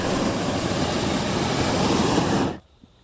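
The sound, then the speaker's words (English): A loud, steady burner roar as pilot lights are lit and the burner fires. It holds evenly for about two and a half seconds, then cuts off abruptly into near silence. “I'm going to light the pilot light. There's 3 pilot lights to light, and I'm going to make some noise.”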